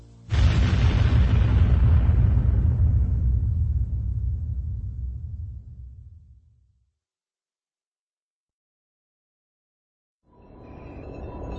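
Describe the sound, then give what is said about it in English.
A massive explosion as a planet is blasted apart by a space station: a sudden loud boom with deep rumbling that slowly fades over about six seconds, then silence before another low swell rises. “the Death Star blasted Alderaan, and an entire world exploded before him.”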